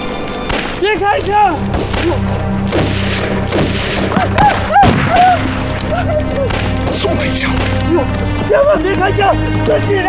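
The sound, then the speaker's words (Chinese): Gunfire rings out in a dense series of sharp, loud shots and thuds across the whole span, with excited voices talking and shouting over the shooting. “都别开枪了，别开枪！送他一程。千万别开枪，自己人，自己人！千万别开枪！”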